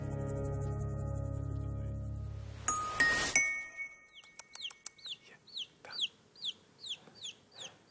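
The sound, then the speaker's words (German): Male chick of an egg-laying breed peeping in a rapid series of high, falling chirps. Before the peeps come a low steady hum and a brief metallic clatter. “Und trotzdem hat dieses männliche Küken hier ein Problem denn es stammt von einer Rasse, die speziell zum Eierlegen gezüchtet worden ist.”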